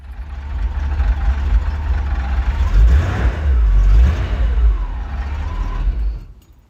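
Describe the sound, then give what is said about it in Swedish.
A classic 1950s V8 car engine rumbles with a deep, loud, steady low growl that swells slightly in the middle, then fades away over the last second. “ljudet från en klassisk 50-tals V8. Jag tror att även om man inte är någon bilkonnässör så på något vis känner man igen det. Det mullrar ju skönt.”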